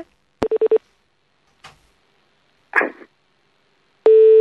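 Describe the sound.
A telephone being redialed: a sharp click, four quick beeps, a couple of brief rustling noises, then a loud steady tone that starts near the end and continues.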